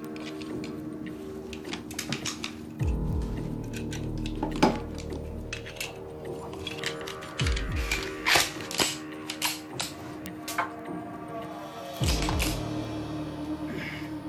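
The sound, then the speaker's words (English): Metallic clicks, clacks and rattles come from handling a shotgun and checking a Colt 45 pistol magazine, with many sharp, uneven taps and a few heavier knocks and no voices. “Clumsily, he checks over the shotgun. Again, using a handbook, he gets to grips with the finer points of the magazine for the Colt 45.”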